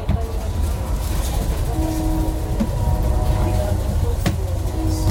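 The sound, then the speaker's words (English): Passenger train carriage in motion: a steady low rumble of the moving car with faint tonal whine above it, broken by one sharp click near the end. “as I walked back to my seat with my $2.50 dining car water, through the carriage full of Mexican travellers, passing around mango, Lay's potato chips.”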